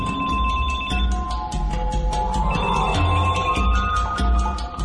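A mobile phone or pager rings with an alert, a rapid trilling electronic tone pulsing continuously over a busy, low background.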